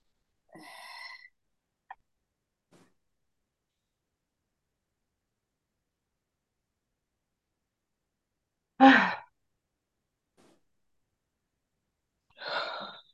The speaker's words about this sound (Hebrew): רק שתיקח כמה נשימות עמוקות, ואת הנשימה החוצה תוציאו בדחיפה, כן, פשוט תדחפו אותה.